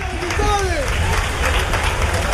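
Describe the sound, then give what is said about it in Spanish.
Audience applause for a band: dense, steady clapping and crowd noise with a man's voice speaking over it. “aplauso para ellos. ¡Los Star!”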